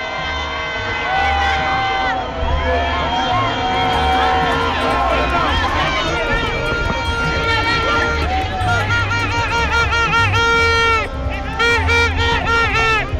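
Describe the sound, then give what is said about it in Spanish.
A loud crowd of Venezuelans demonstrates peacefully outside a metro station in Santiago, a dense, continuous mass of shouting and chanting voices that rises and swells without pause. “Escuchemos un poco del ambiente de los ciudadanos venezolanos.”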